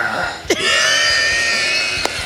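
A woman's loud, forced burp from a record-setting attempt: one long, sustained, harsh and tonal belch lasting about one and a half seconds, starting with a sharp onset and ending with a brief click.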